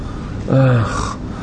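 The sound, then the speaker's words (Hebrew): Panting while climbing stairs: one short, loud voiced gasp with a strained, groaning tone. It stands out briefly over a faint background hiss. “עולה הביתה, מתנשף במדרגות,”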